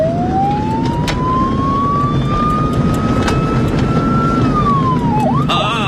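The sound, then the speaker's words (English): An emergency vehicle siren sounds in a night-time traffic jam: one long wailing tone climbs slowly, holds, then drops near the end, over a steady loud rumble of traffic noise. “Look at this traffic jam, even at this time of night. It's time to use the siren, I think.”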